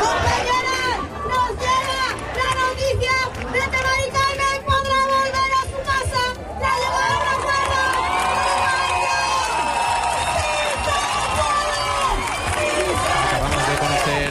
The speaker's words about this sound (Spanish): todo mientras el público canta "No nos vamos, nos quedamos". Público aquí en Sevilla que también ha reaccionado con júbilo a la noticia del acuerdo de Mari Carmen con el fondo Urbagestión para poder volver a su casa.